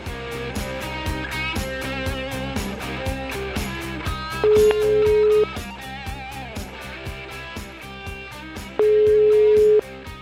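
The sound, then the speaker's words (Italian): A placed telephone call ringing, two steady one-second ring tones about four seconds apart, heard over rhythmic background music with a regular beat. “Chiamiamo uno di questi, vai.”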